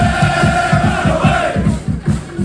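Rayo Vallecano football fans chant in the streets of Leipzig, a loud massed crowd chant driven by a steady, rapid rhythmic pulse that repeats throughout.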